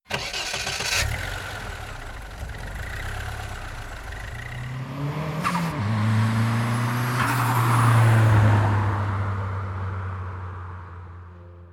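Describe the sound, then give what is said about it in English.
A car engine cranks and catches with a rough burst, then revs up with rising pitch as it speeds off, growing louder toward the middle before the roar gradually fades away. “he runs to his mask, pulls it over his head, and jumps into the Batmobile, speeding off into the night.”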